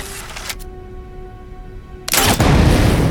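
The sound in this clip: A scoped crossbow fires at a target on a shooting range, and the target bursts into flames: a sharp crack, then a quieter humming stretch, then a sudden loud roaring burst that lasts to the end.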